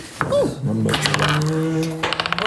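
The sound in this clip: Dice rolled for initiative in a tabletop role-playing game, a brief clatter of rattling ticks near the end after a sustained voice.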